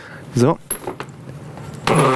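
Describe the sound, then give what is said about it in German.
A voice imitates a creaking chair as someone stands up: a short rasping, wavering vocal creak, a stretch of faint scraping noise, then another strained vocal burst. “Mein Vater ist mit schnarrendem Stuhl, ich mach's mal vor,”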